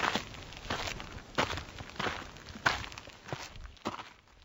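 Footsteps of a woman, a nurse carrying her bag, as she walks to a neighbour's house. The steps are soft and faint, falling in a steady, even rhythm with no other sound.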